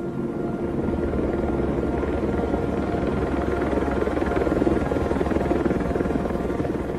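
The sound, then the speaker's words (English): Army helicopters flying: a continuous, rumbling rotor drone with a fluttering, choppy texture that holds at an even, moderate level throughout. “Amy Goodman at the end, with the sound of Army helicopters up to no good in the background”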